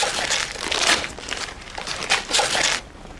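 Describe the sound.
Gift wrapping paper being ripped open, heard as several loud crinkling, tearing bursts that come in quick uneven surges and then stop near the end.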